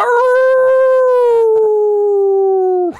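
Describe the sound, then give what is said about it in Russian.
A dire wolf gives a long, loud howl. One sustained, tonal cry with rich harmonics glides slowly downward in pitch for about three seconds, then cuts off abruptly. “Лютоволки же не замолкали. От их воя закладывало уши”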